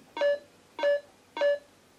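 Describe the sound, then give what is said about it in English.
A phone alarm going off, three short identical electronic beeps at an even rhythm, each with a sharp onset and a clear steady tone, fairly quiet. “Could someone pass me my phone? And that was the alarm for what? just general alarm.”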